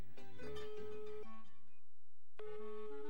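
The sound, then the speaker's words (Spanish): Melodic telephone ringtone: a run of clear tonal beeping notes, then a lower held phrase, a brief pause, and the melody starting again. Moderately quiet, with no voices. “¡Ay no, Alejandro! ¡Contesta el teléfono!”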